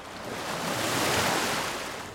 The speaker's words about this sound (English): And a wave splashes over the lens.